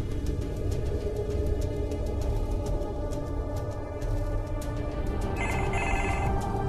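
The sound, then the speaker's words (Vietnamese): Telephone ringing, a rapid rattling bell repeating throughout, set against a thick, steady wash of noise with no voices. “Có tiếng chuông điện thoại.”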